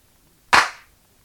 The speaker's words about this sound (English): Hand claps. Type B.